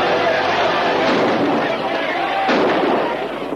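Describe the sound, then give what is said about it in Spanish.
A gunshot fired into the air from the driver's seat of a cart during a brawl, a sudden sharp burst rising out of a constant dense roar of noise. “sube al pescante de su carro y dispara al aire.”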